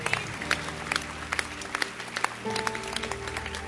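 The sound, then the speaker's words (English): A church audience claps during a service, sharp hand claps bursting out in an uneven rhythm over a steady backdrop of sustained musical tones. “Oh, I like the way you are clapping.”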